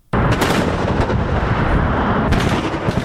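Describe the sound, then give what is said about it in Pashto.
Gunfire during a security operation to reopen roads in Paktia between Gardez and Patan, a loud, dense and sustained roar of shots that fills the whole clip without any talk. “داود تپان ورباندې راپور لري چې د ډزو په ژغ پیلېږي”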